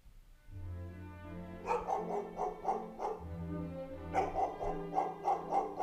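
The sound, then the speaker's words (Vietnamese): A black dog barks outside in a yard at night: a fast run of sharp, repeated barks, a short pause, then a second run of barks at the same moderate loudness. “Ở ngoài sân, thi thoảng con chó mực lại sủa nhấm nhằng, rồi gầm gừ.”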